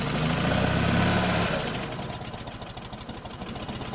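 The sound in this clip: A classic Fiat 500's 18-horsepower engine, shaking on a tired motor mount, idles roughly and nearly stalls. A louder opening burst drops into a low, uneven chugging pulse that wavers irregularly.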